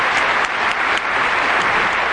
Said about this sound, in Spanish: un aplauso para ustedes